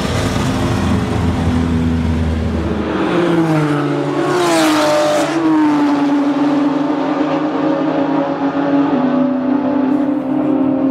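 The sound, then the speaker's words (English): Loud roar of speedway racing motorcycle engines, a continuous revving drone that drops in pitch partway through and then holds a steady tone. “The noise, the smell, the excitement Speedway offers so much.”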